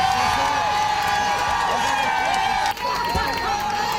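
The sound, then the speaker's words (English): Hockey fans cheer as the Montreal Victoire women's professional hockey team gets off a bus at the Verdun Auditorium hoisting the Walter Cup, a loud, continuous crowd roar with high shouted voices and whoops. “That is the sound of fans welcoming the Montreal Victoire as they got off the bus hoisting the Walter Cup.”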